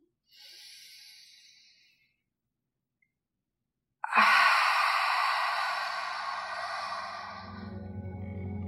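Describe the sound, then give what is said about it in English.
Guided breathing for meditation: a soft breath, then a silent pause, then a longer, louder breath that trails off slowly. “It will sound something like this. Exhale completely. Go ahead, breathe in.”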